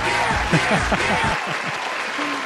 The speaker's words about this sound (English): Oh, that crowd applause goes on way too long, huh?